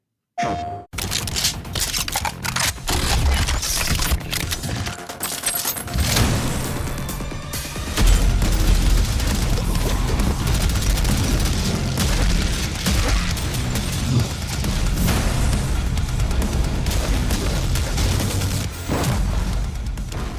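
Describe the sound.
Gunfire and explosions from a violent, bloody shooter video game: a loud, dense, almost unbroken barrage of rapid shots, cracks and deep booms, with a short lull early on before the barrage resumes.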